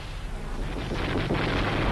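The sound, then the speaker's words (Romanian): Gunfire and shooting merge into a dense, continuous, heavy rumble that stays loud and steady throughout, with no clearly separate shots standing out. “Dar tot se mai trage.”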